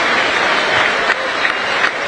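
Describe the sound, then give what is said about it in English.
A stadium crowd applauds steadily as a Wrexham forward is substituted late in a football match against Barrow. The clapping is dense and even, with a few slightly louder bursts. “Mullen deserves a huge round of applause. Another fine performance by him”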